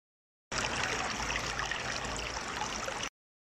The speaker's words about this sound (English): Birds are singing for spring. They see a running river.